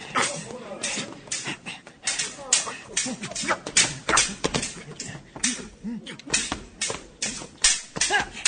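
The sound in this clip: Sword blades clash over and over in the fencing duel between Hamlet and Laertes. Many sharp, bright strikes fall in an uneven rhythm, mixed with voices.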